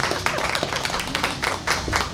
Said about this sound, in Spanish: Un aplauso para él. Un aplauso espontáneo, qué maravilla.